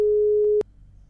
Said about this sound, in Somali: Qadka telefoonka ayaa ka go'ay